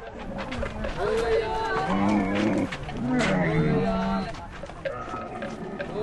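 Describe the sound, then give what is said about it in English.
Herds of camels gather at a watering hole inside a refugee camp, giving deep, drawn-out groaning bellows that rise and fall and overlap in a continuous rough chorus. “Herds of camels gather inside the camp area every morning. Their owners guide them to the steep bank of the only watering hole for miles.”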